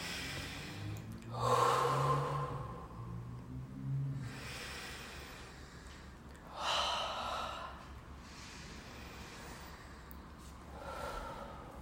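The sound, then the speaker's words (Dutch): Three slow, deep breaths taken as a breathing exercise, each a soft airy inhale and exhale spaced several seconds apart, heard alone against a quiet background. “haal even drie keer diep adem”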